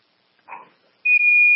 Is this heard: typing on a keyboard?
no